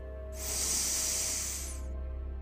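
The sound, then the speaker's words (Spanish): A slow, deep inhale during a guided relaxation exercise, an airy hiss that starts just after the opening and runs for about a second and a half over a soft, steady tonal drone. “Cierra tus ojos y respira profundo.”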